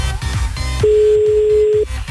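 A telephone tone as a call is placed to Esneux for a radio poll: one steady, pure, mid-pitched beep lasting about a second, laid over continuous busy background sound.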